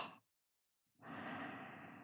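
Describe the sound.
A slow, long exhale of breath during a guided relaxation breathing exercise: a short breath sound, a pause of silence, then a steady, soft breathy rush that carries on for about a second, with no talk.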